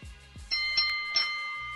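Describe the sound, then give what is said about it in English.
A bell rung as a sound effect: a bright, sustained ringing tone with a few sharp strikes that hold their shimmer, following a few soft low thumps at the start. “If the prediction is bold enough, you'll hear the bold enough bell. Sounds like this.”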